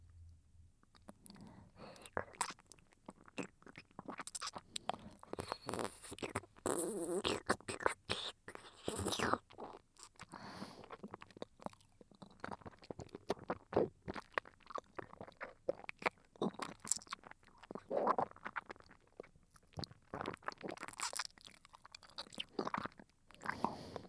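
Close-up eating and chewing right by the ear: a dense, irregular stream of crunchy bites, wet mouth clicks and smacks, fairly quiet, with soft breathy sounds between them.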